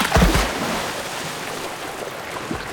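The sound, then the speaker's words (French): Otters splash as they jump into water beside a den hidden under the roots of a large willow. A brief, loud splashing burst comes first, then a steady wash of water noise continues, with no voices. “Elle le jette dans l'eau et motive les autres. Allez, pas de chichi. À trois, on saute. Un, deux, trois.”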